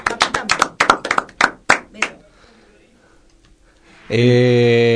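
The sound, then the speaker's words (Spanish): Scattered hand claps from a small group, a quick run of sharp, loud slaps over about two seconds that thin out into quiet, then a loud sustained musical chord comes in. “Bueno, aplaudémoslo,”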